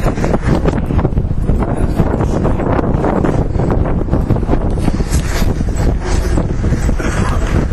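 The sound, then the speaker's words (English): Wind blowing outside a London station, gusts buffeting the microphone in a loud, continuous rough roar that never lets up. “Bit of wind.”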